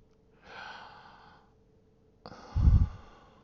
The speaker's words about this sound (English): Breathe deep.